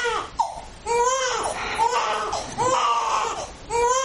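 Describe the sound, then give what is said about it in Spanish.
A baby cries on a sofa in a series of wailing, tonal cries broken by short breaths. The cries are moderately loud, with pitch that bends up and down within each wail. “El bebé llora en el sofá.”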